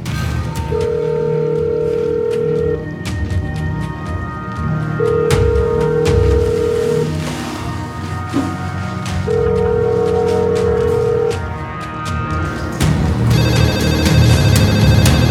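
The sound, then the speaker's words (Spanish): A telephone call ringing out with no answer: three long, steady ringing tones separated by even pauses, heard over a dense, busy background that continues throughout. “descuelga el teléfono y llama”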